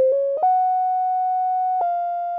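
Pure sine-wave tone, like a tuning fork's, plays a melody of a few sustained notes: short opening notes, then a step up to a higher pitch that holds steady. The tone is clean and fairly loud, with no voices.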